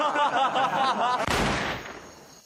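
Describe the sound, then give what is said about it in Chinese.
A single sharp gunshot sound effect of a Browning pistol accidentally going off. It bursts in right after a voice speaking, then fades over about a second. “哎呀，爹。这么好的枪还能走火啊？”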